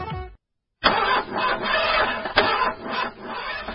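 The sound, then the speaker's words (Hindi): A car engine cranks and fails to start because of a battery problem. After a short silence come loud, uneven grinding pulses in a rough rhythm for about three seconds. “ला फिर यो गाड़ी ले धोखा दिने भयो जहिले पनि ब्याट्रीकै समस्या ब्याट्रीकै समस्या”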